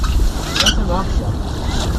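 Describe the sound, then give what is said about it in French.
Sailboat under way in light wind as the genoa and mainsail are hoisted for a long-distance race, with steady wind and water noise and a brief rustling burst of gear early on. “Ben là, on envoie les voiles, on a envoyé le génois, on a envoyé la grand voile, et puis on va essayer de se déhaler avec le petit vent qu'on a.”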